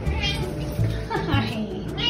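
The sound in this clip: A 14-year-old light gray tortoiseshell cat meowing: a few brief, fairly faint meows mixed in with a person talking.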